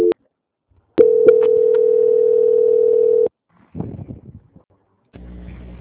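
A telephone line tone plays while a call is transferred: a brief blip, then a steady mid-pitched tone held for just over two seconds, followed by a few short noisy sounds.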